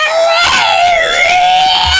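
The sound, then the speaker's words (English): A voice imitating the noise a cat made at night while attacking a window screen: a loud, long, wavering high-pitched yowl held almost without a break. “I was like startled awake by this noise that our cat was making, and she was attacking the screen.”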